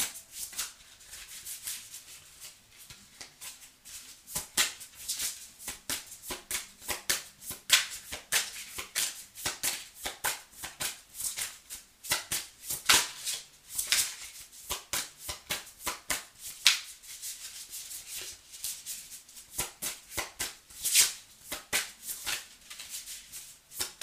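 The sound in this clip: A tarot deck is shuffled and handled during a card reading, producing many rapid, crisp card riffles and slaps in an irregular rhythm, fairly quiet, with no talking.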